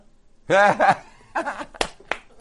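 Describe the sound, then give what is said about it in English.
A lone person clapping hands, a few sharp, isolated claps spaced apart, following a short burst of laughter. “How can you not clap for the funniest thing that's been said all day? I'm clapping. That's amazing. I'm still the only one clapping.”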